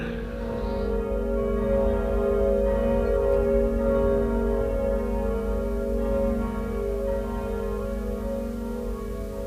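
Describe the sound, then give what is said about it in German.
Church bells ring out in Lisbon on the morning of All Saints' Day 1755: a steady, sustained peal of overlapping resonant tones that holds an even loudness throughout, with no voices. “Die Glocken läuten schon.”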